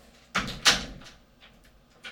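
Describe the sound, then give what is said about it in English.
A door closes and is locked: two solid thumps in quick succession, followed by a few lighter, fainter clicks. “Close the door and lock it.”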